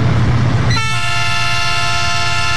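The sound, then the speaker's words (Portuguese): A commuter train arriving: a loud rumbling rail roar, then a sustained, steady train horn that cuts in early and holds to the end over the continuing rumble. “Ô, trenzinho tá vindo. Hoje tá cheio, hein?”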